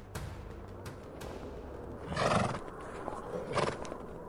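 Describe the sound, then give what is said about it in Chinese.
A horse neighs as its rider sets off, with a few sharp hoof clicks early on, then two whinnies, the first fuller and the second shorter, all fairly quiet with no talk. “驾！ 就这样，安娜骑上马儿后，开始了寻找姐姐艾莎的冒险之路。”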